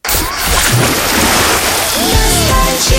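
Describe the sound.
A loud wave splash sound effect, a rushing, surging wash of water that crashes in at once and churns continuously for a few seconds.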